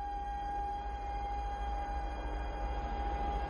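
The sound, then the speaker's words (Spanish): A passing train gives a steady low rumble under a sustained, even tone that holds for the whole stretch without breaks or talk. “El tren pasa de largo.”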